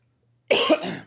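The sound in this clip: A single cough from someone with a frog in their throat. After a stretch of silence comes one short, harsh burst with a second swell, with no talk over it.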